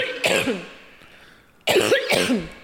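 Two loud bouts of coughing from one person are heard, each a harsh, throaty burst. The second bout is longer than the first, and a quieter pause sits between them.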